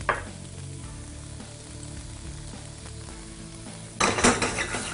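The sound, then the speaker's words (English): Green and red peppers fry in olive oil in a pan, giving a soft, steady sizzle after a brief crackle at the start. Near the end a much louder, crackling burst of sizzling takes over. “All right, fry it up.”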